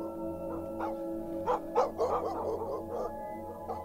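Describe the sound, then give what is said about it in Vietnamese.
A dog barks somewhere in a distant village on a late-autumn night. Many short, irregular yaps and barks rise over a steady low hum. “Đâu đó tiếng chó cắn ma cứ nhấm nha nhấm nhẳng từ trong làng vọng ra.”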